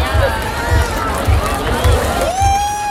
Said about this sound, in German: Wie ihr hört, die Menschen wollen gar nicht gehen. Aber jetzt ist wirklich vorbei, Feierabend.